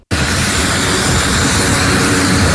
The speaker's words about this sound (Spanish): Así salía el avión que llevaba la primera ayuda a Venezuela desde Puerto Rico el miércoles en la tarde.